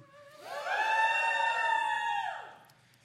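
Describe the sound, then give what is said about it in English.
Students cheer for the Bible at Life Church with one long, sustained vocal shout. It swells, holds steady for about two seconds and then drops away in pitch. The shout is fairly faint. “So we cheer for the Bible at Life Church, if you've never seen that. And the students cheer really long.”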